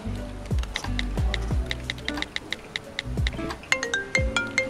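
Phone ringtone for an incoming call: a bright, repeating electronic melody of plucky notes, with several descending tone patterns recurring in a steady rhythm.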